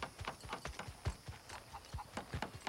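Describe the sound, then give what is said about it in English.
Horse hooves clip-clop as a horse is ridden across a farm. Many steady, rhythmic hoofbeats run through the whole stretch, with no talk. “In the morning, Caleb rides his horse across the farm.”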